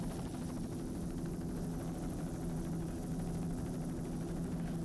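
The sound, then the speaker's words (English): Racing superboat engines during an offshore powerboat race make a steady, low, rumbling roar with a buzzing edge. It is fairly faint and holds an even level throughout, with no clear swell of a pass-by. “Specialized Racing Superboat coming up. And Typhoon Racing, Factory 1.”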